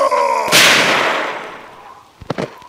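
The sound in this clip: A single loud gunshot blast from a gun with freshly adjusted sights, a radio drama sound effect: a sharp booming crack with a long decaying rumble, followed near the end by a few quick, sharp clicks.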